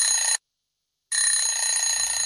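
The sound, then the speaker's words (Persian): Telephone ringing: a bright, high electronic ring sounds in two bursts, a short one that cuts off, then a pause of silence before a longer burst starts up again and keeps going. “تلفن قطع میشه و دوباره زنگ میخوره.”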